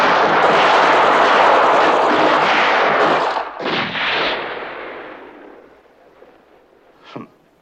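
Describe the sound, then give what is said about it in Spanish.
Battle gunfire from a squadron: a dense, continuous roar of shots for about three seconds, then a few rumbling bursts that fade away, and a single sharp report near the end. “El fuego del escuadrón rojo pone en fuga a los soldados blancos que van cayendo hasta quedar aniquilados.”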